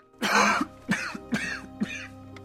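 A man coughs right after lighting a cigarette. One heavy, rasping cough is followed by three shorter, throaty hacks, with no talk.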